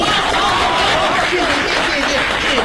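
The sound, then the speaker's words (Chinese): An audience applauds, a dense, even roar of clapping that stays loud and unbroken from start to finish. “谢谢大家的掌声啊。”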